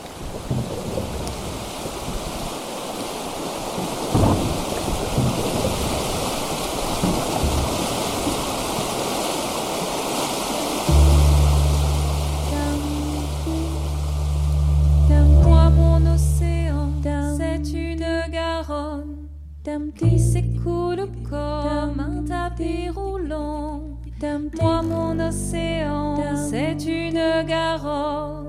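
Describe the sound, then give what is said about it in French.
The Garonne river in flood roars as it carries gravel downstream: a dense, deafening, steady rush. Partway through, music comes in over the water. “les graviers qui sont plus hauts, hein, ils descendent, ça fait un bruit assourdissant.”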